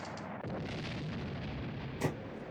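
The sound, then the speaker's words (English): A gunshot fired into a ceiling in a 1982 film: one sharp crack stands out briefly over a continuous dense rumbling noise bed. “shooting the gun into the ceiling”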